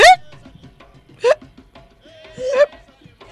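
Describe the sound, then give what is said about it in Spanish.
A voice imitating hiccups, as from eating or drinking too fast: three short, sharp voiced hics spaced about a second apart, each with a quick jump in pitch. “Y si comes o bebes muy rápido, podés tener hipo. El aire entra de golpe en los pulmones y tus cuerdas vocales hacen...”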